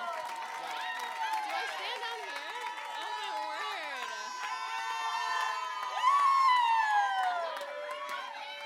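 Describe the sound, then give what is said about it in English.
A crowd cheers, whoops and claps to welcome a speaker at a church gathering, a dense, sustained roar of many voices that swells louder partway through. “will you help me in welcoming Andrea Hansen up to the platform? Come on, give it up for Andrea.”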